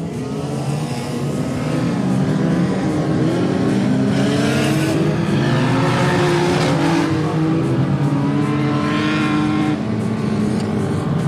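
Race car engine of a rear-wheel-drive Volvo 240 during a race: a continuous loud roar whose pitch shifts up and down throughout, with no talking.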